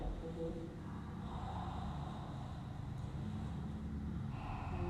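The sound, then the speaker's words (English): A slow, deep inhale during a guided breathing exercise, drawing air into the belly and then up through the chest toward the collarbones. It is a soft, steady, airy breath that runs unbroken across the whole clip, quiet and without any talk. “Inhale, belly, pause mid-sternum, all the way up to the collarbones, and then maybe go a little bit more to your chest, yeah. To the upper chest.”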